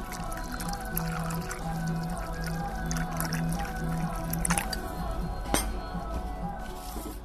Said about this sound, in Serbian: Mi sada moramo da uklonimo filter, jer je naše vreme isteklo i sada je naš čaj spreman za konzumaciju. Ja ću sada da ti to isipam u šoljicu.